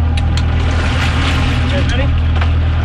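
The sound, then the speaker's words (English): A boat engine drones steadily while shark researchers work aboard off the coast of Miami, a loud, constant low rumble with wind-like noise, with people's voices talking over it throughout. “You're listening to a group of shark researchers on a boat off the coast of Miami.”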